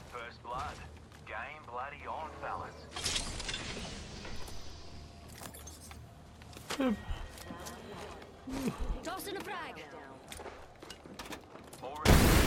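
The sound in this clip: Gunfire crackles in a video game shootout, with scattered bursts of shots while a player talks over them.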